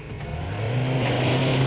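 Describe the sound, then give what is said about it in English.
A car engine revs as the vehicle starts driving, a steady low engine hum that swells slightly louder and holds. “Okay, start driving.”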